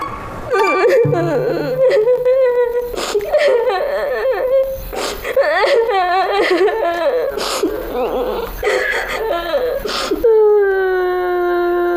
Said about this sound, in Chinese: 别哭了，又不是你一个人剪，大家都剪嘞。